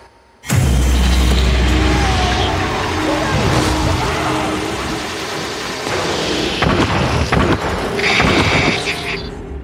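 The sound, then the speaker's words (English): Sound from the video game Prey: a heavy low boom cuts in sharply and opens a loud, dense stretch of rumbling, mechanical clatter and thuds that stays busy to the end. “Oh, that's Prey. Yes, it is. And that scene.”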